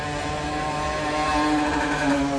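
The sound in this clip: Motorbikes that have been de-restricted rev and idle at a bus depot, making a loud, steady engine drone with a rough buzzing tone that holds throughout, with no voices.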